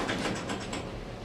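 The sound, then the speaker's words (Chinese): A garage door opens with a mechanical rolling rumble that stays steady throughout, with light rhythmic rattles near the start and no talk. “雷蒙打开车库挑车”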